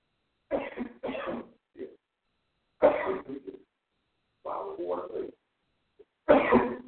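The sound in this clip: Dry coughs and throat clearing from a person with a dry throat in the heat, a few short harsh bursts with brief pauses between them, and a longer rasping clear near the middle and a final burst at the end.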